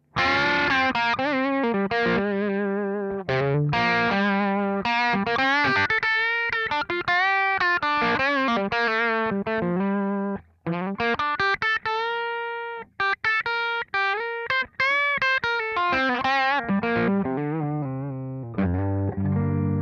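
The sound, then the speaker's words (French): Crunchy overdriven electric guitar played through a Kemper profiler with an 800-style crunch profile: a continuous run of riffs and sustained notes and chords, with only a few brief gaps. No one talks. “Et maintenant, je veux entendre le son du Kemper. Profilé. Comme on l'avait fait la dernière fois.”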